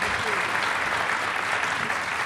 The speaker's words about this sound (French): c'est Jonathan Coe, et je vous demande de l'applaudir chaleureusement